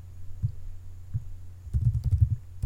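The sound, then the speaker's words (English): Typing on a computer keyboard: a few soft, scattered taps, then a quicker flurry of clicking keystrokes near the end. It is faint, over a low steady hum. “I have to type this and figure out where the fuck it is”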